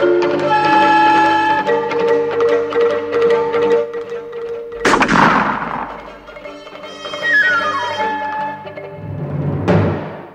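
A rifle is fired from horseback during a chase, giving one sharp, loud crack midway through ongoing orchestral music.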